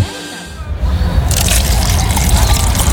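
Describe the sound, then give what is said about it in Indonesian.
Liquid gulps and trickling as someone drinks water after exercise: a quiet opening gives way to a steady, wet, hissing wash that continues to the end. “Ah, seger banget. Iya iyalah, kan habis olahraga, dahaga langsung hilang dengan langsung minum air. Habisin dulu dong minumnya, jangan sampai nyisa gitu.”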